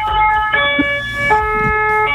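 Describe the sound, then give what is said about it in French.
A short blast from a fire service vehicle's siren: a loud two-tone call that switches pitch twice within about two seconds, with no talk over it. “Alors un petit coup de sirène pour conclure.”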